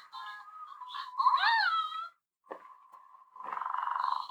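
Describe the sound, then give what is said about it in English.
Electronic toy cat sounds: warbling meow-like tones, a single click, then a steady buzzing purr that runs to the end without talk. “Oh, it's purring now.”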